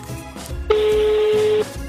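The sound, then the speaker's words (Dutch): A single sustained telephone tone, roughly a second long, sounds from a phone on speakerphone as a call is placed; it starts and stops abruptly over faint background noise, with no talk. “we gaan het gewoon proberen bellen, ja, op de luidspreker”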